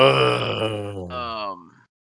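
A drawn-out vocal groan made on request: one sustained, strongly voiced moan lasting under two seconds, loud at first, its pitch sinking slightly before it trails off into silence.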